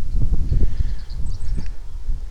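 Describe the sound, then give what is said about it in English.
Strong wind sweeps across an open plain, buffeting the microphone with a loud, continuous low rumble and uneven gusts, with a faint rustle and hiss above it throughout. “And the wind is blowing pretty good now. I'm out on the open plain.”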